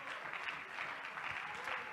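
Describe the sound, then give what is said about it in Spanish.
A church audience clapping in praise to the Lord, a faint but even patter of many hands that continues without a break. “Le damos palmas de alabanza, hermano, al Señor.”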